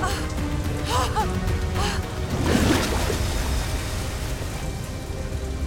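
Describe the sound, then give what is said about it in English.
Heavy rain pours down on a boat as a storm approaches, a dense, steady hiss that fills the whole clip and swells briefly near the middle; a faint voice-like sound surfaces early on. “He opens them as it begins to rain heavily.”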